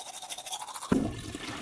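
A toothbrush scrubbing teeth during an ordinary morning wash-up routine. A faint, steady brushing hiss turns coarser and louder about halfway through.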